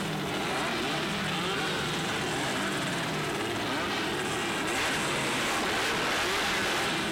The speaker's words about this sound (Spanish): escucha cómo acelera el Sport 4